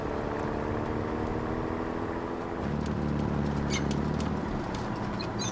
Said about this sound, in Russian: Под стеной крепости едет легкий броневик.